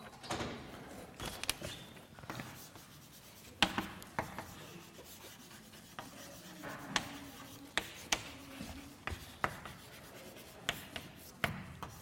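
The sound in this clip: A mathematical formula is written out by hand: many short, scratchy strokes and light taps come in uneven bursts, with sharper clicks scattered throughout, faint and without any talk.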